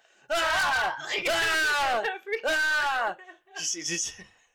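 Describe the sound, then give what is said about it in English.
Someone screaming into a microphone: a few long, loud, strained vocal screams with wavering pitch, separated by brief gaps, followed by a shorter, thinner cry. “You gotta lean away from the mic when you do those screams.”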